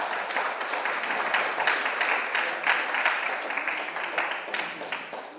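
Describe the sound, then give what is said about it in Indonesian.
A round of applause for a film festival award winner: dense, sustained clapping from a crowd, steady and fairly loud throughout, easing slightly at the very end. “second film to have won at the Thai from the jury award and also won the audience award for Dharamshala is Tales from the Pasture by Tsering Wangmo. Could we have a round of applause for her?”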